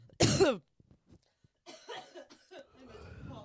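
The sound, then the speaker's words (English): A single sharp cough straight into a microphone, loud and abrupt, followed by a brief quiet gap and then people talking. “and you coughed right into the microphone.”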